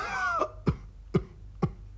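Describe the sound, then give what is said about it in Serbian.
A voice imitates sickly ducks coughing, five or six stunted ducks in a clearing. A brief voiced sound is followed by three short, sharp coughs, evenly spaced and alone. “kad tamo na jednoj čistini sedi pet ili šest kržljavih pataka i kašlju. Ma nemoj! Kašlju.”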